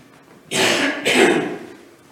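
A preacher clears his throat and coughs during a church sermon: two rough, forceful bursts in quick succession, the second slightly louder, then fading into quiet.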